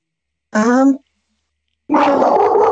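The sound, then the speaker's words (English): A dog barking at home, two loud bursts separated by a pause of silence. “Good doggo. Sweet puppo.”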